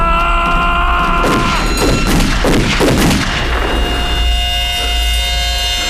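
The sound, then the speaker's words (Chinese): Gunfire erupts after a weapon is loaded and aimed: a cluster of loud, sharp blasts in quick succession over a sustained tonal background, followed by a fading, ringing tail. “准备上膛，瞄准，开枪！”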